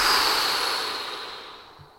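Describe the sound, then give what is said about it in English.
A deep breath exhaled through the mouth: a long, soft, breathy rush of air that fades steadily over about two seconds, heard alone. “Take another breath now, a big inhale. Exhale through your mouth.”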